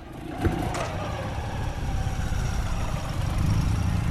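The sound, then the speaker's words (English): A motorbike drives off with a steady, throaty engine drone that swells slightly in loudness as it pulls away, with a brief click near the start. “Smiling as she secures her helmet, she drives off.”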